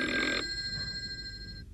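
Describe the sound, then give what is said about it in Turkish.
A telephone bell rings in one short, loud metallic burst, followed by a thin lingering tone that fades after about a second. “telefon çalıyor.”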